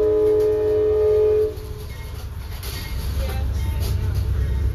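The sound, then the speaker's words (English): A train horn sounds one loud, steady blast lasting about a second and a half, then cuts off. The low, rolling rumble of the passing train follows and gradually grows louder. “And excuse the horn blowing, that's the train.”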